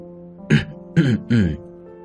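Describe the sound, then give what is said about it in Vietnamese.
Someone clears their throat three times in short, rough, raspy bursts. The bursts are loud and close together, with quiet gaps between them. “Mạc trưởng lão nhìn Lam Anh đầy phấn khích, vội vàng hắng giọng.”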